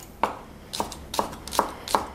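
Knife chopping spring onions and pickled ginger on a board for a smoked tofu salad: five crisp, evenly spaced chops, quiet and alone with no talk.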